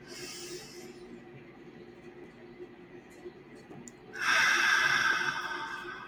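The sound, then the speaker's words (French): Deep breaths taken during a guided meditation: a breathy exhale fades at the start, a quiet stretch follows, then a long, loud airy breath that slowly tapers off. “à prendre 3 profondes respirations. À prendre le temps de souffler.”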